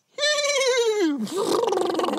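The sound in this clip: A voice imitates a horse's whinny: one strained, wavering tone that dips in pitch midway and then breaks into a rough, breathy, fluttering noise.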